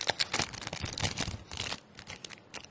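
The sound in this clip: Crinkly tearing of a trading card pack wrapper as it is ripped open and snags on the cards inside. Many quick, faint crackling bursts follow one another irregularly, then the noise thins out near the end.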